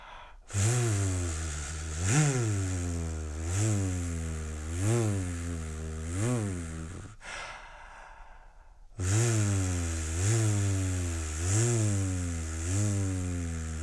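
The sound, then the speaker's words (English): A voice imitates a low revving engine with a buzzing V sound: a deep, resonant hum that swells upward in pitch again and again in a steady rhythm, breaks off briefly, then resumes with more revs. “just to create that V sound, but sort of a very low resonance, very low and kind of a revving sound.”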